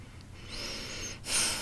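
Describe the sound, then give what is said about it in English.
A deep breath, soft and airy, in two parts with the second stronger and rougher, and no talking. “I invite you to just pause for a moment and take a couple of nice deep breaths.”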